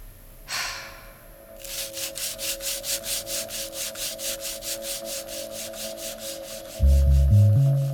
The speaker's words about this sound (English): What do I do with this? You scrape. Scrape what? The rust. But it's all rust. Then you scrape all of it.